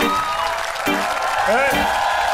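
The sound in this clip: Concert crowd applause at a hip-hop show: a continuous roar of clapping with cheering and shouted voices rising above it, steady and fairly loud throughout.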